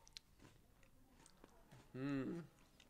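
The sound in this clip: Chewing on a Nutter Butter peanut butter sandwich cookie, with soft, scattered crunchy bites and mouth clicks, then a brief hummed voice sound near the end.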